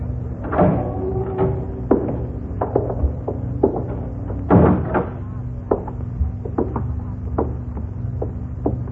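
A cell door is opened with a string of knocks, clunks and thuds. One heavier bang stands out near the middle, and smaller rattling impacts are scattered before and after it.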